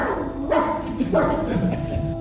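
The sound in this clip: A dog barks in a stage play, giving two short, sharp barks about half a second apart over a dense murmuring background.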